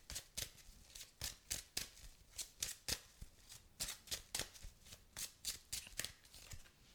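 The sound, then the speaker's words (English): Tarot cards are shuffled and drawn, many quick crisp riffling snaps in an uneven rhythm, quiet and heard alone. “Okay, let's go ahead and pull some cards. See what's going on for the week.”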